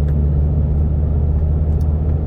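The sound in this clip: A car driving along a road at night, heard from inside the car as a steady, low engine and road rumble that holds an even level throughout with no voices.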